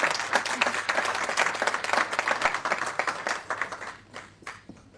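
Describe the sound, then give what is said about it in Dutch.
Applause from the public gallery in a council chamber during a swearing-in: dense, steady clapping from many people that thins and fades toward the end. “Dan mag u nu allemaal gaan zitten. U mag als u wil wel even applaudisseren.”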